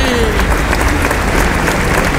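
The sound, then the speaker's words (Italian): Audience applause from a crowd at a fan event, a dense, steady patter of many hands clapping that holds at an even level for the whole stretch, with a voice faintly mixed in beneath it. “Un applauso.”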